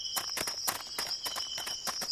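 Footsteps of people walking through a forest, a steady run of crunching steps at an even pace, with a constant thin high-pitched whine running underneath.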